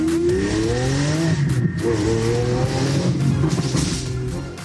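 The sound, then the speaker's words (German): A car engine revving hard on a Berlin street, driven like a Formula 1 car, gives a loud continuous roar that climbs in pitch in several rising sweeps, with no talk over it. “Formel 1 fahren.”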